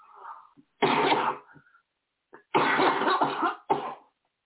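A person clears their throat in a few rough, raspy bursts, with short pauses between them and no talking.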